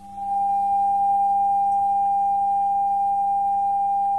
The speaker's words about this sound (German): Und schließlich ein 800 Herzton.